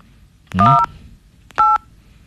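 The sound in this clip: Telephone keypad tones ring out as a star code is dialed: two short, bright touch-tone bursts separated by a brief pause, over a faint low hum.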